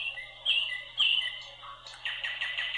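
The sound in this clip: Nightingale singing: bright, high chirping and warbling phrases in a few quick bursts, with a brief louder trill near the end, over a faint steady low hum. No voices.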